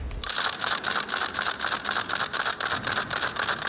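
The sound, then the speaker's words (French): A small hand-cranked ratchet noisemaker, the rattle once carried by lepers, clacks loudly and steadily as it is turned, giving rapid clicks grouped in even pulsing bursts with no talk. “C'est un appareil qu'on fait tourner, donc avec une sorte de manivelle qu'on doit faire tourner et qui fait un bruit très très intense qu'on entend de loin.”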